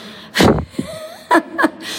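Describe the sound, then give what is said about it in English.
A person breathes heavily, out of breath after running up stairs to a station platform. A few loud, breathy gasps come in separate bursts with short pauses between them. “I'm a bit out of breath because I just ran up the stairs to get to the platform.”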